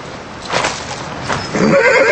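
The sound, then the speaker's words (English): Horses being ridden away: a few soft hoof thuds, then a loud whinny near the end. “Gabriel and Benjamin start to ride away, and Susan steps forward.”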